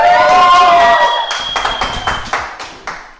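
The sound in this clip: Applause from a live studio audience at a youth radio show, after a sustained tonal sound. About eight distinct, loud claps land at an uneven pace and thin out toward the end.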